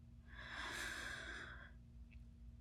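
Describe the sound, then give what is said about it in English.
A slow breath drawn in, soft and airy, swelling gently and lasting over a second before fading, faint over a low steady hum. “One, two, three. Breathe in.”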